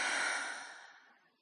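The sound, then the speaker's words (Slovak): A single deep, airy breath during a breathing exercise, breathy and broad, starting strong and fading steadily to near silence. “Ešte jeden nádych. A výdych.”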